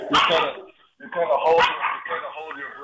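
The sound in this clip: Attack dogs barking in loud, harsh bursts of barks and yips, with a brief pause near the middle before the barking resumes; voices can be heard mixed in with the dogs.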